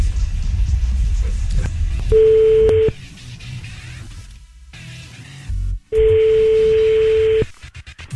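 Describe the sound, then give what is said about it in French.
Ringback tone of an outgoing phone call: two long, steady beeps at one mid pitch, the second longer than the first, separated by a quiet gap, with faint background noise and no voices. “On appelle ta frangine, c'est parti.”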